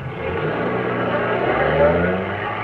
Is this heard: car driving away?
yes